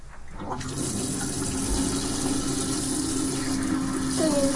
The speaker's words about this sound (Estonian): Pese käed palun